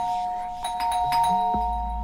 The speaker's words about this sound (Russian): Но дверным звонком дворцовым был в реальность возвращен.